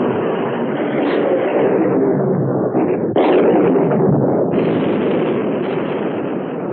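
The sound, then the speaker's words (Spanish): Naval guns open fire in the 1960 war film Sink the Bismarck!, a loud, continuous roar of heavy gunfire with a couple of sharp new blasts breaking in partway through. “¡Abra el fuego, comandante! ¡Abran fuego! ¡Fuego!”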